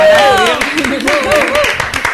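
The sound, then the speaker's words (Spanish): Clapping from a few people gathered around a radio studio table, a quick run of hand claps underneath lively overlapping voices that talk and call out over it. “Antes que nada, un aplauso,”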